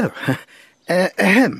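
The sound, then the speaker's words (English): A man coughs a few times, short voiced, throaty bursts with a falling pitch, broken by brief breathy gaps and standing clear without other talk. “When one is dictating, one should speak clearly and not cough. Besides, I can't spell a cough.”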